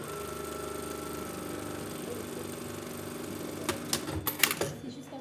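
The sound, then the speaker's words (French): A sewing machine stitches in a school sewing workshop after a thread jam was cleared from around the bobbin holder. It runs with a steady, rapid mechanical hum and regular stitching rhythm, then gives a few louder clattering knocks near the end. “Là, vous voyez, rien qu'au piquage, j'entends la différence. Et en fait, j'ai juste enlevé, là où il y avait le support canette, il y avait une espèce de bourrage de fil que je suis venu retirer. Et apparemment, ça vient de là, puisque là, elle pique.”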